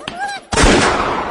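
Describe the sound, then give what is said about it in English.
A single loud gunshot bursts out and decays into a long, noisy tail. A brief voice is heard just before it. “I told you to shoot that thing. I did. Well, shoot it again.”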